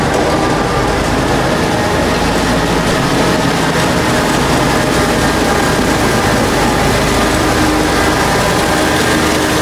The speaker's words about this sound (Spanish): Y arranca la Zamboni de Eric.